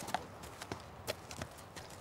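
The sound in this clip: A horse being led at a walk up and down, its hooves giving a few soft, faint clip-clop strikes in an uneven rhythm over a low background hiss.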